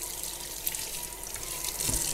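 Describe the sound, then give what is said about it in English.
Water streams from a running kitchen tap as hands oily from peanut oil are rinsed after mixing peanut cookie dough, a steady, soft splashing hiss with faint irregular spatters. “I'm just gonna wash my hands here.”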